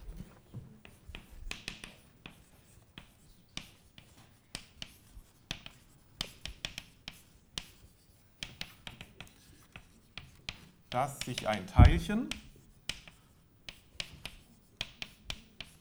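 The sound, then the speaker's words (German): Chalk writing on a blackboard, heard as many short, dry scratching taps in an irregular rhythm, with a denser, louder flurry of strokes near the end. “Und das habe ich mir aufgeschrieben und das schreibe ich wahrscheinlich auch nochmal an die Tafel.”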